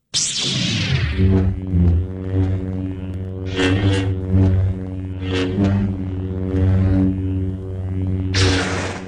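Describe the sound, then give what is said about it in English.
Star Wars lightsaber hum that opens with a bright burst, then a steady low buzzing drone swells and wavers through several swooshing swings before ending on another sharp, bright burst. “It's the sound of good old lightsaber. Lightsabers.”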